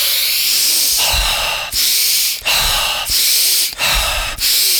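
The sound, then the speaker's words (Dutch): Deep breaths in and out during a guided breathing exercise, loud, rushing and hissy, several long breaths following one another with only brief pauses between them. “Laatste keer in. rustig uit. Uitademen.”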